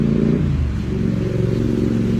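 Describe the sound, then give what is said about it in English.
Motorcycles rev outside, producing a loud, continuous engine roar with a low, buzzing harmonic drone that stays fairly even throughout, with no talking. “It's going to make the sermon longer, the motorcycles.”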